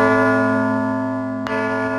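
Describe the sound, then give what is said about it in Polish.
A large cast church bell, decorated with Brazilian animals and bound for a Brazilian sanctuary, sounds a sustained ringing tone with rich steady overtones. The tone fades only slightly, and one brief click interrupts it. “Na szacie tego dzwonu znajdują się wszystkie zwierzęta, które występują w Brazylii.”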